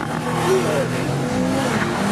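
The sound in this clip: A 659-horsepower car accelerates hard off the line with launch control on a track. The engine gives a loud, sustained, throaty roar throughout.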